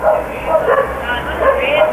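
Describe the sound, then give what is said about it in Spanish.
Dogs bark repeatedly at night in a neighborhood near a liquor store turned cantina, sharp mid-pitched barks and yips rising out of a steady low background. “Ahí están. Ladran los perros.”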